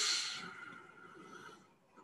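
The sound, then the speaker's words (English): A deep inhalation in a guided breathing exercise: an airy, hissing breath that starts strong and gradually tapers off over about a second and a half. Near-silence follows as the breath is held. “So inhale very deep.”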